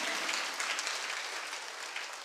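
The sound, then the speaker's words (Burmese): Church audience clapping their hands in praise during a Sunday afternoon sermon, a dense, steady wash of many hands that stays loud and even for the whole stretch. “လက်ခုပ်တီးလက်ဖခင်ကိုကျေးဇူးတော်ချီးမွမ်းကြရအောင်အာမင်”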